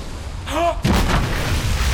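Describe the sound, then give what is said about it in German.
A ship fires its guns at sea: one heavy cannon blast hits just before the midpoint, followed by a loud rumbling roar that lingers to the end. “Wie? Die schießen auf uns! Mit Erlaubnis, Monsieur, die glauben, den Narwal vor sich zu haben und schießen nun auf ihn.”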